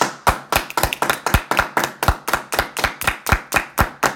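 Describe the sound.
Clapping to welcome back a returning guest: many sharp, crisp claps in an even, steady rhythm, with no talk over them.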